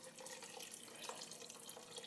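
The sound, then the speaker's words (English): Water pours into a pot of chili as a faint, steady splashing trickle that runs evenly for about two seconds. “We'll add some more water.”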